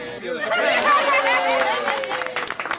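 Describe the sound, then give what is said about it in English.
Crowd chatter fills the Kirkland Wednesday Farmers Market on its opening day in 2011, with several voices overlapping in a steady, lively murmur. “We are on location all the time, and we're starting out at the Kirkland Wednesday Market. Yes, today is opening day 2011.”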